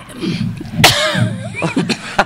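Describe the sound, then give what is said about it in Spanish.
A persistent cough comes in a few sharp, harsh bursts, with rough voiced breathing and throat sounds between them. The final cough is short and abrupt. “dile que la tos no cede”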